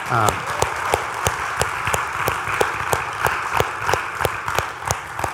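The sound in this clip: Congregation applause at a church service, given for the volunteer team working the booth: a steady run of sharp, evenly spaced claps rides over a softer bed of clapping for about five seconds.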